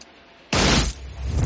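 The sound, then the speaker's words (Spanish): Film explosion blasting a hole in an armored truck and blowing out the windows of many vehicles during a 1995 heist thriller: half a second of quiet, then a sudden loud, sustained roar. “Una explosión abre un hueco en el blindado y vuela los cristales de numerosos vehículos.”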